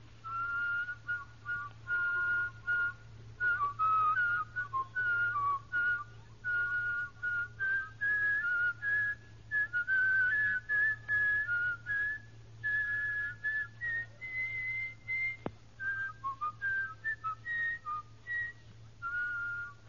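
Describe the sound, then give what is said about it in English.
A person whistles a fragment of the second movement of Beethoven's Seventh Symphony. Clear, short repeated notes step gradually higher, then drop back down, over a low, constant hum. “That particular thing is a fragment of the second movement of Beethoven's Seventh Symphony. Now give us the same thing in counterpoint.”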